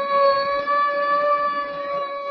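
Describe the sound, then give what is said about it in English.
An ambulance siren sounds as a loud, steady, sustained tone with strong harmonics, holding its pitch throughout with no voices. “To start off with, we'll show you the fellows who take you there. The men who have the most dangerous jobs of all, the ambulance drivers.”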